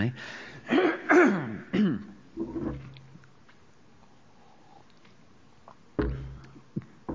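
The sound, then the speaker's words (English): Throat clearing and coughing from a person with a blocked throat: several rough, loud bursts in the first three seconds, a quiet stretch, then one more burst near the end. “I'm told when your throat is blocked, you ought not cough. But I can't.”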